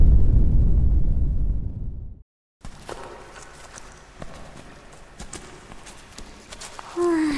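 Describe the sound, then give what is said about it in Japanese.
A deep, loud ground rumble, one of the frequent tremors of late, rolls for about two seconds and then cuts off abruptly, followed by quieter scattered knocks and shuffling noises. “あ、最近多いな、地鳴り。”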